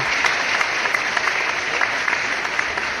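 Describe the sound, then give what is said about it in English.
An audience applauds a guest being introduced on stage, a steady wash of many hands clapping with a few sharper claps standing out, continuous at an even level. “So we'll give her some applause.”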